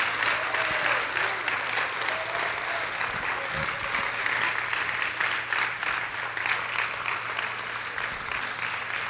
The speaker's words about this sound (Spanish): Dale un aplauso al Señor en esta hora.